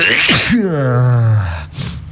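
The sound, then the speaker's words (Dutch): A sneezing fit: a sharp breathy burst turns into a long, loud voiced cry that falls slightly in pitch, then a second breathy burst follows near the end. “Het is wel onderhoudend, die niesbui.”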